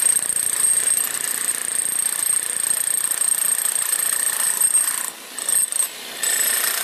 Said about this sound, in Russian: Это такая пила, как бы у него вместе на отбойнике такая пилка.